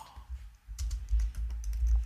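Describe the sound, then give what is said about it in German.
Fingers type on a computer keyboard into a teleprompter in a short, quick burst of irregular keystrokes, the clicking growing busier after a brief pause. “ich, ich schreibe hier gleich mal mit in meinen Teleprompter”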